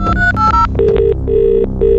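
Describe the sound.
A telephone rings with electronic warbling tones in a few short repeated bursts, loud and alone without talk.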